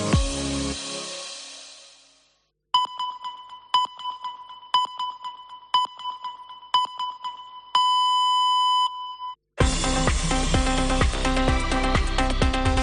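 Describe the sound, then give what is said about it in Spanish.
Radio time-signal pips marking a quarter hour on a Catalan-language station: five short, steady high beeps a second apart, then one longer final tone. Music fades out before them and loud music starts right after. “Senyals horàries de 2:15 del migdia d'aquest dimarts, dia 9 de gener.”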